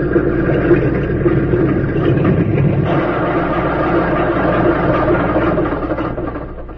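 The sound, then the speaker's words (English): A small plane's engine idles after landing on a small field, a steady low rumble that runs throughout and eases off slightly at the very end, with no voices. “Just before darkness fell, a plane circled the small field and came in for a landing. As its wheels touched the ground”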